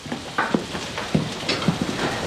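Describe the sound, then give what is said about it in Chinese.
Food cooks in a pan with a steady sizzle and a few soft scraping stirs rising above it, with no voices. “哎，做饭呢？ 啊，快做好”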